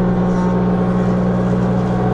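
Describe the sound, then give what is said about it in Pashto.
Loud, continuous droning hum of woodworking machines cutting and levelling wood in a furniture workshop. A low motor tone holds steady throughout without a break, and no voices are heard. “څوک په ماشینونو لرګي رکوي، څوک په همدې ماشینونو لوړې ژورې هواروي،”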